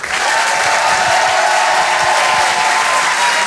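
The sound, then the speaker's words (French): Comedy club audience applauding a performer walking on stage: loud, dense, steady clapping that fills the whole stretch without pause, with crowd noise mixed in. “Je vous demande de faire un maximum de bruit, s'il vous plaît, pour Urbain.”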